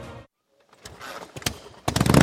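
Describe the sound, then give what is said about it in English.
A Harley-Davidson motorcycle with loud pipes roars into life. Its rough engine rumble rises through a few sharp revving bursts and ends in a loud, sustained growl. “Can your bike bring the thunder? Can your bike bring the thunder? Join Appleton for our famous Loud Pipes contest.”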